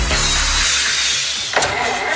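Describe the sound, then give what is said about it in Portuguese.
A car engine cranks after the key is turned but fails to start, a loud, continuous churning grind that never catches, with a brief harsher burst near the end. “Virou a chave e o carro não pegou?”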